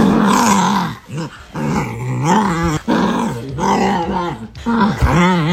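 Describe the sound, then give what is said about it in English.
A dog makes strange growling sounds: a string of about five drawn-out, wavering growl-moans with a voice-like rise and fall, loud and alone, with short gaps between them. “hard to believe that's a dog, but it is. That would be my dog.”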